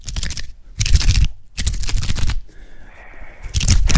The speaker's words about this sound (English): I've had chopsticks in my pocket this whole 6 weeks. Okay, can you rip them open and rub them apart? Because it's the rubbing apart that is the secret sound.